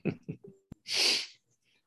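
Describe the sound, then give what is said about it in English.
A few short, breathy catches of breath build up, then one loud, hissy sneeze bursts out and quickly fades, with silence after. “I'm going to sneeze.”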